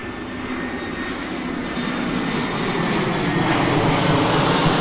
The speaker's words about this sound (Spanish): Tomó el avión.